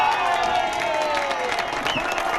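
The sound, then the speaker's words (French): Applause and cheering from Spanish football fans filling about twenty tables on a café terrace in central Madrid, celebrating their team's semi-final qualification; dense, steady clapping mixed with shouting voices throughout. “Applaudissements et cris de joie sur cette terrasse du centre de Madrid où une vingtaine de tables étaient toutes occupées par des aficionados ravis de ce nouveau spectacle.”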